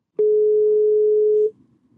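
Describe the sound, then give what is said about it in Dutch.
A telephone dial tone sounds while a call is being placed: a single steady, loud tone that holds evenly for over a second, then cuts off abruptly into faint background hiss. “Dus het wordt tijd om Erik nu weer te bellen.”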